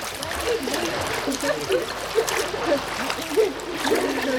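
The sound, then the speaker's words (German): Water splashing in a swimming pool as children swim to the edge after diving for rings, a steady churning wash with small splashes and faint children's voices under it. “Und jetzt schwimmen wir zum Rand.”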